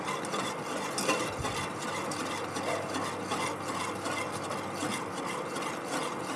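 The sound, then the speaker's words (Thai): Stirring of a thickening, gel-forming mixture in a pot over heat, a steady scraping and rubbing churn that runs continuously and evenly throughout, with no voices. “แต่ว่าถ้าปรับความร้อนขึ้นก็ต้องเร็วนะคะ ใช่ค่ะก็ต้องมีการกวนให้เร็วขึ้น”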